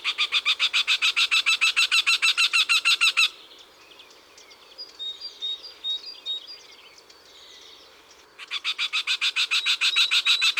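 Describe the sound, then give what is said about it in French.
A male and female Eurasian wryneck duet of harsh, nasal calls. Two long, rapid, evenly pulsed series of loud notes are separated by a stretch of quieter, scattered chirps. “On a entendu des chants plus agréables, mais le torcol a au moins le mérite de l'originalité.”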